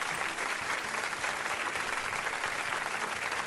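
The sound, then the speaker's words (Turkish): Audience applause at a live quiz event: a dense, even clatter of many clapping hands that holds steady at moderate loudness for the whole stretch, without letting up. “Bir alkış alabilir miyiz”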